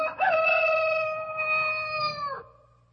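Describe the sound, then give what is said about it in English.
A rooster crows once, loud and alone, with a long, steady, strongly tonal call that holds for about two seconds before cutting off abruptly. “I heard it. We all heard the rooster crowing as Jesus had said.”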